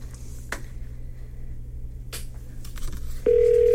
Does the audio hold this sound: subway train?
no